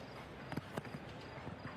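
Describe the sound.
Horse hooves clip-clopping during a show jumping round, a few soft, irregular thuds that are faint beneath a steady background hiss.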